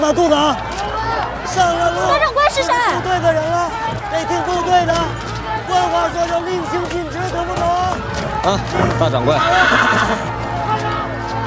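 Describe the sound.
A horse neighs loudly several times amid clip-clopping hooves, mixed with people talking and a background crowd murmur.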